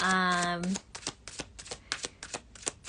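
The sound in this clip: Tarot cards being shuffled: many quick, papery riffles and slaps in an uneven rhythm, following a brief voice at the start.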